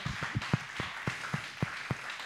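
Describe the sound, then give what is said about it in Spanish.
Sparse clapping follows a request for another round of applause for a guest at the end of a talk. Faint claps come at a slow, fairly regular pace, with long gaps between them rather than a full burst of applause. “Les pido un aplauso una vez más. Gracias.”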